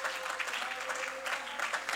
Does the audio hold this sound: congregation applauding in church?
yes